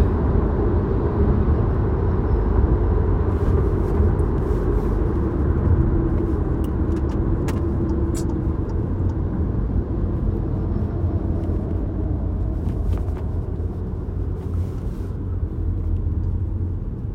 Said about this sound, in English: yeah, some more traffic